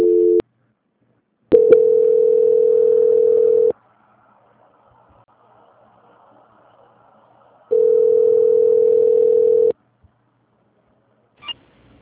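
Telephone tone during a call transfer: a steady, mid-pitched electronic tone. A short burst comes first, then two long tones of about two seconds each, separated by near silence, with a faint click near the end.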